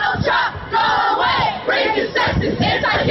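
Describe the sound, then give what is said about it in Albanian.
Street protesters in New York chant against president-elect Donald Trump, a large crowd shouting loud rhythmic phrases in repeated bursts separated by brief pauses. “Nuk është presidenti imi, ne e refuzojmë presidentin e zgjedhur, brohorit në protestuesit.”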